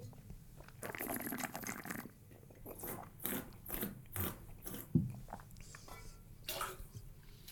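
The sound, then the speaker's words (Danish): Slurping sips of an oaked Chardonnay from outside Burgundy, a wine with somewhat higher alcohol, come as a few soft wet sucking bursts with one sharp click midway, all faint. “Jeg opfatter vinen, vil lige smage den en gang til.”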